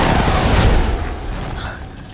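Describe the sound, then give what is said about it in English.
A single deep, loud explosion as a hovercraft fires on a hospital during a rebel attack: a broad roaring blast that swells briefly, then slowly fades into a low rumble. “As Katniss and Gale watch the distant hovercrafts, another sweeps overhead, firing down on them.”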